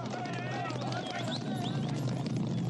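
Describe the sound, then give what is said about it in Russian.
Horses gallop at full speed, a white and a black horse carrying riders with banners at the head of an army. Dense, rapid hoofbeats run continuously under a busy background. “Белый и вороной кони скачут во весь опор.”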